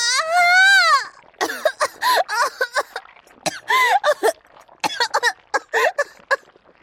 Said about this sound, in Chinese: 一声尖利刺耳的惨叫，刹那间划破空气，紧接着便是极其惨烈的呛咳声